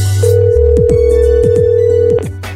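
An outgoing telephone call rings with one long ringback tone, a steady mid-pitched hum of about two seconds. Other sounds sweep downward beneath it, and then the tone cuts off.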